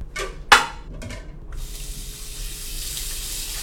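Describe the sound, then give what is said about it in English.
Tap water runs over fresh coriander being washed in a sink. A few brief clatters come first, then a steady, hissing rush of running water continues at an even level with no voices. “I will chop up some coriander and wash it off that way.”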